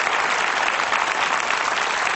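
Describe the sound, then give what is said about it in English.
Audience applause: a dense, steady burst of many hands clapping together, holding an even level for about two seconds with no voices heard over it. “Yeah, you wanted to applaud. Go ahead.”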